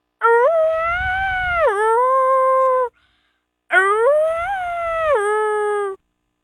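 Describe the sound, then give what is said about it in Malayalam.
A jackal howling in two long, wavering calls separated by a short silence, each tone sliding down in pitch partway through before it levels off and fades. “Kurukkan ഓലയിടുന്നത്.”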